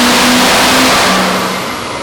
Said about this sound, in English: Up over 3,700 RPM. That turbo's singing.